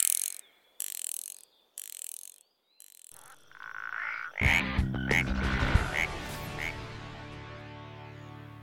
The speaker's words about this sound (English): Hand me that hex wrench. Yes, the 3/4 inch.